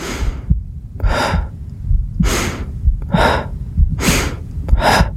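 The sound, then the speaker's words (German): Rhythmic breathing exercises: five breathy, gasp-like bursts of air come at a steady pace of roughly one per second, each clearly audible over a low, continuous rumble, with no talking. “Ich fing an, atmen zu üben.”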